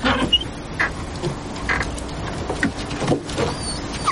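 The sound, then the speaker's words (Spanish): Rear door of a van being opened: a few clicks and mechanical rattles over a steady, noisy background, with no talk. “Él le abre la puerta trasera la caniche, sube encima de la caja rectangular.”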